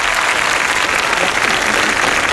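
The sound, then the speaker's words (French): An audience applauds in a dense, loud, continuous wash of clapping that stays even from start to finish. “D'ailleurs, le public applaudit.”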